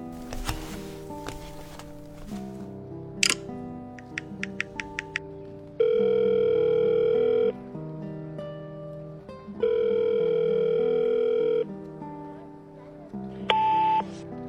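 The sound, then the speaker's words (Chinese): An outgoing telephone call sounds: a run of short bleeps, then two long steady ringback tones separated by a pause, with a brief tone near the end, all over soft background music. “他惴惴不安地给雪梨打了个电话”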